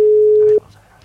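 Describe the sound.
A single steady, mid-pitched telephone tone as a call is dialed out. It holds level for about half a second, then cuts off abruptly, leaving a faint low hum.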